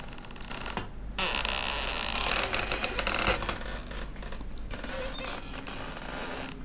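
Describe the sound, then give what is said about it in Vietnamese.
Door hinges creak as a door slowly swings open, a long, drawn-out squeaky groan that holds steady in loudness with small scraping shifts throughout. “Đột nhiên cánh cửa từ từ mở ra, vang lên tiếng bản lề cọt kẹt, nghe đến muốn nổi da gà.”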